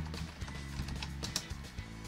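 Typing on a computer keyboard, faint light clicks tapping in an uneven rhythm, heard alone.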